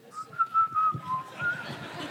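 A person whistles a short melody of a few clear notes, its pitch wavering a little, done while walking around scared, with faint background noise beneath.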